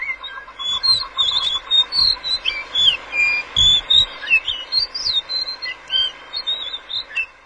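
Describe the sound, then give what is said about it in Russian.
Whistled song of a blue whistling thrush, also called the violet thrush: loud, continuous, high, fluty phrases that rise and fall in pitch, with a few soft low thumps underneath. “Вы слышите голос синей птицы.”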